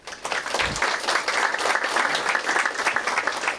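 An audience in a hall applauds the winner of a photography competition, a loud, dense burst of clapping that swells in within half a second and then holds steady to the end.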